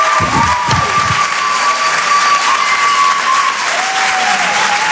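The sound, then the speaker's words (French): Loud, dense applause from an audience at a stand-up comedy show, a continuous wash of clapping held steady from start to finish, with faint crowd noise mixed in. “Faites du bruit, s'il vous plaît, pour Lala sur Rire et Chanson.”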